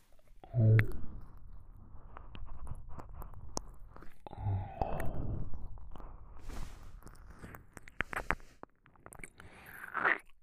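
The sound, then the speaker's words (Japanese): ASMR ear-eating mouth sounds, with soft wet chewing, biting and smacking in irregular bursts, plus many small clicks at a faint level. “ねえ、あなたの耳食べてもいい？いただきます。”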